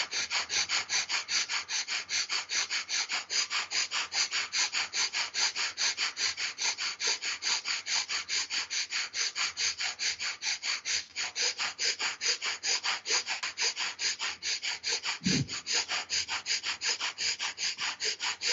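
Rapid, forceful bhastrika bellows breathing in a yoga exercise, with many sharp, even breaths repeating in a steady, quick rhythm throughout, fairly faint and with no talking.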